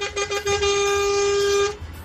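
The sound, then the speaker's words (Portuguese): Car horn honking on the road, with a couple of short toots followed by one long, loud, steady blast lasting over a second before cutting off. “E para vocês que estão no trecho, uma buzinadinha aqui para vocês.”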